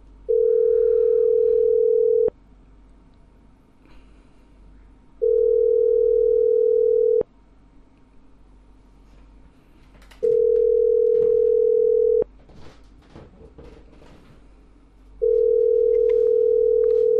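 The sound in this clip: A phone rings out while someone calls a debt collector who does not answer. Four steady, loud ringback tones sound, each about two seconds long, separated by roughly three-second gaps of quiet line noise.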